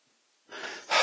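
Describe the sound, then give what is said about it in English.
Two short, heavy breaths, a gasping intake followed by a louder, rougher breath, both quick and airy. “Oh yeah, just short breath.”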